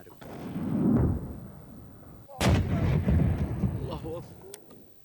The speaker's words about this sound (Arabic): نشر المركز الإعلامي للقوات المسلحة اليمنية مشاهد لما قال إنها قصف مدفعي نفذته القوات الحكومية على مواقع وتجمعات للحوثيين في جبهات مأرب الجنوبية